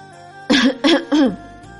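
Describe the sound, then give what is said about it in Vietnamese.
A dry cough made as three short, harsh bursts in quick succession, fairly loud and alone, with no talk around it. “Bạch Ngọc Đường ho khan một tiếng.”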